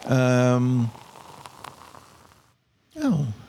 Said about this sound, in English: Filling glasses.